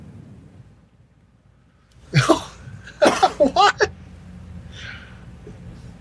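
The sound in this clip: Coughing and throat clearing from a tickle in the throat: one harsh burst, a short gap, then a quick cluster of rough, fairly loud coughs, ending in a faint breath.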